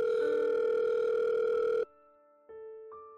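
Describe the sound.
Telephone ringing tone of an outgoing call waiting to be answered: a steady, loud buzzing tone for almost two seconds, a short silence, then the tone starts again.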